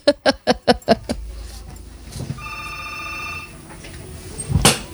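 Telephone ringing as an incoming call is answered: a quick run of five sharp pulses, then a sustained buzzy electronic tone lasting about a second, ending in a brief noisy burst, with no talk.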